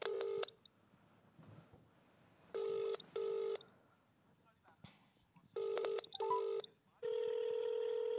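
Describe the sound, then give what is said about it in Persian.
Telephone keypad tones as a call is dialed: short, steady beeping bursts, some in close pairs, separated by quiet gaps, then a longer sustained tone at the end. “خب ما دوباره با این گوش تماس بگیریم.”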